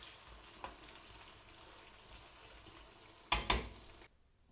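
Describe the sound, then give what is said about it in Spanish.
A fried potato and onion mixture for a tortilla is drained of oil in a colander. A faint, steady sizzle gives way to a brief, louder burst of pouring and clatter near the end, then quiet. “las voy a escurrir en una escurridora y voy a dejar enfriar la mezcla totalmente antes de comenzar a montar la tortilla.”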